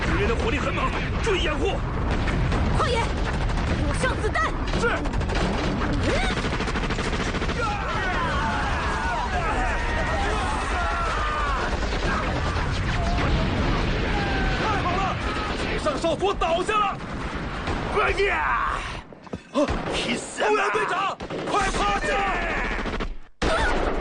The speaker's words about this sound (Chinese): 不好，我们的机枪手倒下了！矿爷， 机枪给我！